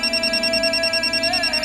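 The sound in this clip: A telephone rings with a rapid, evenly pulsing electronic trill, loud and steady and heard alone.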